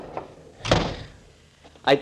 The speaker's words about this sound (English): Shut the door after you come in